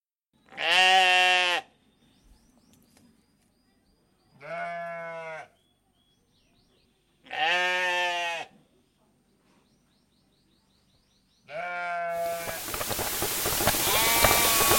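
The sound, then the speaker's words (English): Sheep or goats bleat at a farm: four loud, wavering calls separated by pauses. The last bleat runs into a sudden burst of harsh, broad noise. “So let's return to the farm sounds previously in progress.”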